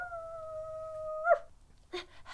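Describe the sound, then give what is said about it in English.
A dog lets out a long, steady, held howl that breaks off sharply, followed by a few short, high yips and whimpers after a brief pause. “She's going to bark all the way to your place, isn't she?”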